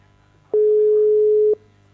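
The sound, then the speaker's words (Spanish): A telephone call tone sounds while redialing after a dropped line: one steady mid-pitched beep lasting about a second over a low background hum. “se cortó nuevamente la comunicación. Le estoy llamando. Le voy a llamarle.”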